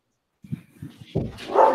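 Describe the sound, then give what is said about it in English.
Dogs barking excitedly: a few short, low barks come first, then a louder, denser burst of barking and noise builds toward the end. “and my dogs are going nuts.”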